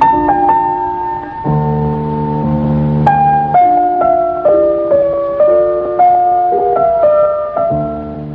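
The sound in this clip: Baroque concerto music played on solo piano, a bright melodic line stepping over sustained lower notes, loud and continuous with no talk.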